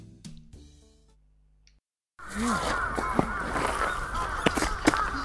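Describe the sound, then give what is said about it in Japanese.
A great number of crows cawing in a dense chorus of harsh, repeated calls that overlap against steady background noise. The calls start abruptly after a soft tonal passage and a brief silence. “カラスいっぱいね。カラスがすごい数だよ。カラスねえ、ヨーマカラス、ね、カラスが鳴いてんねんかーって”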